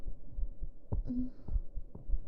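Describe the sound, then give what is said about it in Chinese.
A heartbeat heard against a person's chest: soft, low thumps in a steady, even rhythm over a muffled background rumble. “来，贴在我的胸口上，听着我的心跳，睡觉吧。”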